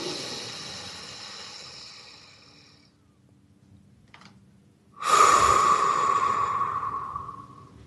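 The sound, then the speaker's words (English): Breathing exercise: a slow, airy inhale through the nose fades out over about three seconds. After a brief pause comes a louder, forceful exhale through the mouth, a rushing breath with a faint whistling edge that tapers off. No talking. “I breathe in through the nose, and then I exhale out the mouth. And let's do that together right now.”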